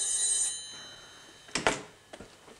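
A telephone bell rings in a short high-pitched burst at the start, then stops; a few soft clunks follow in the quiet.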